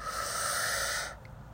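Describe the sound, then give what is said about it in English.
Deep inhale through the nose during a guided breathing exercise, filling belly, sternum and throat: one steady, airy draw of breath lasting about a second, then near quiet. “Go ahead and inhale through the nose, belly, sternum, throat, all fill up with air.”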